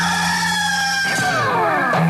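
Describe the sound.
Rooster crowing, a loud sustained harmonic call whose pitch slides downward toward the end, heard alone without talk.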